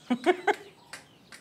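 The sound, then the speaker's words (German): Clucking from laying hens of an English breed bred for free-range keeping, as they step out to be released: three short, bright clucks in quick succession, then a few fainter scratchy sounds. “Komm mal her, aussteigen. Auf dass ihr groß und stark werdet und ganz viele Eier legt.”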